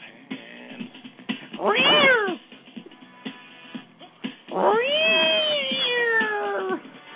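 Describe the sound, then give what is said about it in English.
A cat meows twice: a short, loud yowl that rises and falls, then after a gap a longer drawn-out meow that slowly falls in pitch, both over a faint background. “And then the cat just goes straight up.”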